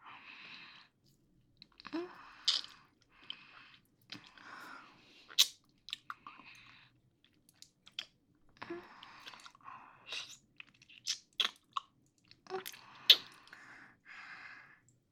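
Chewing of a mouthful of cake while being fed: soft, moist crunches and smacks come in irregular bursts with short pauses between them, quiet and alone with no talking.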